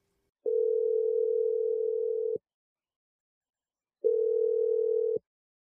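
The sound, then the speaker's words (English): A telephone tone plays while a call is placed: two steady mid-pitched tone bursts, a long one and then a shorter one, separated by silence. “I'm going to dial her number right now. We'll see what she has to say, okay? Here we go.”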